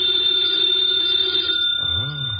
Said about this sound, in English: Should never ignore a phone call. Knows. Might be something important.